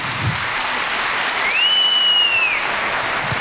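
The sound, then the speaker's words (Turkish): Strong audience applause at a ceremony where plaques are handed out, a dense, even clapping that holds steady throughout, with a brief high whistle-like tone rising above it midway. “Kuvvetli alkışlarımızla kendilerini misafir etmeye devam ediyoruz.”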